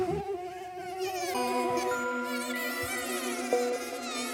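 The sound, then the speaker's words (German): A moth buzzing in flight, heard as a steady, continuous insect drone with a thin, whining edge and no pauses, holding fairly even loudness throughout, with one brief louder flick near the end and no voices. “Du, das ist eine Motte. Das ist keine Fliege. Das ist eine Motte.”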